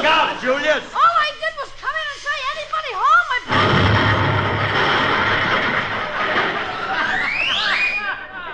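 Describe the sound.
Cannon firing a man into the air as a comedy sound effect: wavering whistle-like tones, then a sudden loud burst that becomes a sustained roaring rush, with a rising whistle near the end.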